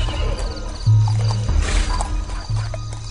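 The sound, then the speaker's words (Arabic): Horses approaching from far away, their whinnying and neighing riding over a low, steady rumble of hoofbeats, loud and continuous throughout with a few sharper calls standing out. “صوت خيل، صوت خيل جاي من بعيد”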